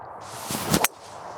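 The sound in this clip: A golf club swings at the ball on a first tee shot, a brief rushing whoosh that ends in one sharp, crisp strike, then quiet.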